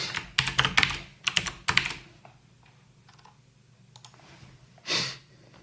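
Typing comments on a computer keyboard: dense bursts of clattering keystrokes for about two seconds, then sparse, faint clicks and a soft breathy swell near the end, with no voices.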